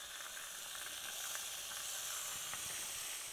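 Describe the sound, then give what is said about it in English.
Bacon frying in a pan with cabbage over low to medium heat gives a faint, steady sizzling hiss that holds evenly throughout. “so the bacon's starting to cook down a little bit here, and so I'm going to put this on low to medium heat”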